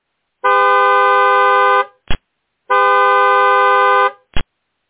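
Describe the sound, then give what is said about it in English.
A delivery truck's horn blares outside a hotel loading dock: two long, loud, steady honks, each followed after a short gap by a brief sharp toot. “While our team follows the blaring sound of the horn out into the Majestic Hotel's loading dock.”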